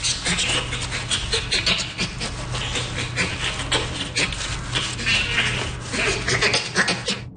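Bonobo panting, a dense, continuous stream of harsh, breathy pants mixed with squeaky, high vocal tones, staying fairly loud and busy throughout with no clear pauses.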